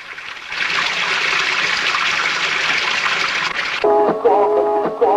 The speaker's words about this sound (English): In a room behind her, a sink overflows with water.